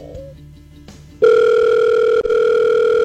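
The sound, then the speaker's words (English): A telephone call being placed: faint tones are followed by a loud, steady ringing tone on the line that holds for nearly two seconds, breaks off briefly, then resumes. “All right. Dialing it up.”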